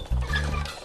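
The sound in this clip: Chickens being let out of their coop give brief, low clucks and gobbling calls. A sudden onset is followed by a short, steady burst of fowl sounds lasting under a second, with no talk.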